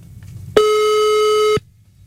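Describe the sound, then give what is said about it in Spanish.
A single sustained electronic beep as a phone call goes to voicemail. It holds one steady pitch for about a second against near silence, with no voices. “Correo de voz.”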